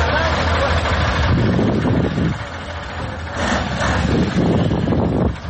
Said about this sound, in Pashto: دا د اورزګان او کندهار د لوی لارې پر سر غټ موټرونه دي چې د کوچني موټرو سره مرسته کوي ترڅو له لوړو او ژورو یې تیر کړي او له خټو یې راوځي.